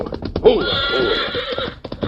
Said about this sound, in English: Bates rode away on a pretext of resting his horse for the contest. 20 minutes outside of town, he reined up in a clearing.